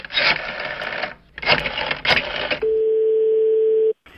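Telephone ringing on a call to a bookshop: a single long, steady ringing tone follows a stretch of noisy rattling and handling sounds, then cuts off abruptly.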